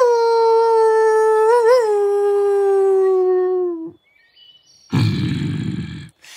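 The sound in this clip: Wolf howl: one long sustained tone with a brief wavering in the middle that slowly slides down in pitch before cutting off. After a short pause comes a harsh, rough, noisy burst.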